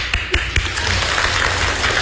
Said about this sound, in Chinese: 谢谢，再来点掌声。